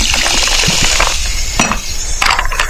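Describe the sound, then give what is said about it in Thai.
Fizzing soda added to a glass of squeezed lime juice: a steady carbonated hiss runs throughout, with a few brighter bursts and glassy clinks. “บีบมะนาวเติมโซดา”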